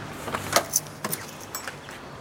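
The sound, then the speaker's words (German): A key works a second door lock, giving a quiet series of sharp metallic clicks and brief jingles spread unevenly across the moment, set against near silence. “Dann ist es noch ein Schlüssel, das zweite Schloss. Ich bin hier reingegangen.”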